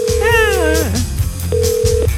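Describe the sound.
Phone tones while a call is dialled: a steady mid-pitched tone joined by a wavering, sliding electronic sound, then a brief gap and a second flat tone, over low background hum and faint voices.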